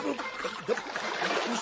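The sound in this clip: Splashing water as a man falls into water in a radio play, a loud, steady churn of splashes lasting the whole moment, with voices mixed in over the sloshing.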